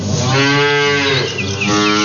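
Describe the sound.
A dairy cow gives one long, loud, sustained moo at morning milking time, a deep resonant call that fills the whole moment with no talk over it.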